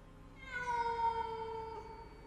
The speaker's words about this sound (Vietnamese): lại có thêm tiếng con mèo, nó đang gào lên như đang dọa, đang đe ai vậy.